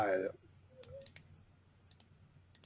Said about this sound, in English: All right, we'll put it up. Type it into the Amazon bar.